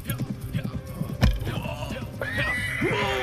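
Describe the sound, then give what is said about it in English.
A horse struck by an arrow in battle falls with a heavy thud after rhythmic hoofbeats, then lets out shrill whinnies whose pitch sweeps up and down. “And a third found its mark on his horse, sending them to the ground.”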